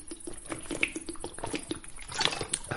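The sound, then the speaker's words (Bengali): Water poured from a flask into a glass on a table: an irregular run of soft splashes and trickling lasting a few seconds, fairly quiet and with no voices. “Helmut মোড়া থেকে উঠে গিয়ে তার টেবিলের ওপর রাখা flask থেকে গেলাসে জল ঢেলে বৈদ্যকে দিল।”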